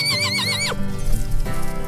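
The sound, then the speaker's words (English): A pony whinnies in a high, wavering neigh that ends abruptly, then a short stretch of hoofbeats follows, loud and alone. “her trusted pony, and they galloped through the woods and mountains together”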